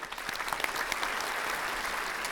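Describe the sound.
Warm audience applause greets Canada's Minister of Energy and Natural Resources at a Canada 2020 event, a steady, dense wash of clapping that holds at an even loudness throughout, with no voices.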